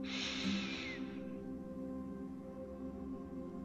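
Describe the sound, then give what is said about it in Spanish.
A single soft breath drawn in through the nose during a guided breathing exercise, a brief airy hiss lasting about a second before fading into near silence. “Solo con la nariz inhalar y exhalar.”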